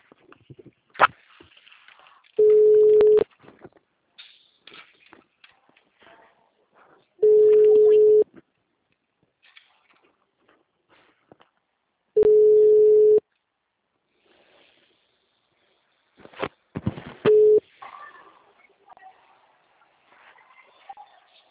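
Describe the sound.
A telephone ringback tone sounds on an outgoing call: four steady, mid-pitched tones about five seconds apart, the last cut short, with quiet gaps between and a voice talking near the end.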